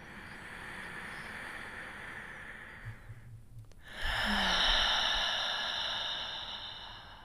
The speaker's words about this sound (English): I want to begin with a few deep breaths.